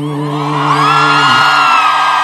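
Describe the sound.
Live audience cheering and whooping as a singer's long held note ends; the sustained vocal tone breaks off midway and the crowd noise carries on, bright and loud.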